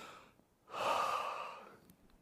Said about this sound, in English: Let's take a minute and just breathe.